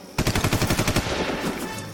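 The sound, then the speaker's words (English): Rapid machine-gun fire in a cave during a firefight: a fast burst of several loud, evenly spaced shots, then a rumbling, reverberant tail that slowly fades. “Lieutenant, stay where you are. We will return fire.”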